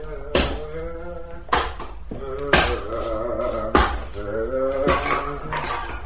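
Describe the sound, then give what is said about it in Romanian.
Wood is chopped with a heavy, regular stroke about once a second, with about five sharp strikes, while a man sings in a wavering voice between and over the blows. “Aud pe cineva care taie lemne și cântă.”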